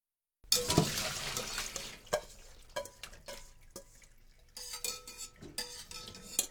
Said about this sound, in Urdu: جب پانی میں دوبارہ ابال آ جائے اور 1 منٹ گزر جائے تو پالک کو کسی جالی دار کفگیر کی مدد سے نکال کر ٹھنڈے پانی میں ڈال دیجئے۔